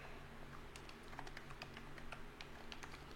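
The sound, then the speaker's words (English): Typing on a computer keyboard: faint, rapid clicking keystrokes in an uneven stream, with no talking. “I'll type it.”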